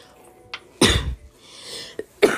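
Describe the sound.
Coughing from someone who hit a blunt too hard: a few harsh coughs, one long heavy burst early on, then shorter, sharper ones.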